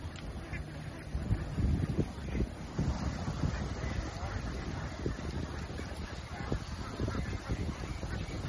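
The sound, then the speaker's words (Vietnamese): A flock of laying ducks quacks and honks nonstop in an open field, a dense, busy chorus of overlapping calls with wind buffeting the microphone. “Ủa vịt nó đi ra ngoài rồi kìa chú ơi. Vịt đi ra ngoài hai con rồi kìa.”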